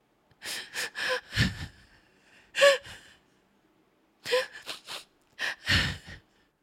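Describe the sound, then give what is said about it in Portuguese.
A girl crying while sitting on a stone: bursts of gasping, sobbing breaths come in several clusters with short quiet gaps between them, heard alone without talk. “Com tristeza, a menina percebeu que ninguém queria ajudá-la. Sentou-se sobre uma pedra e pôs-se a chorar.”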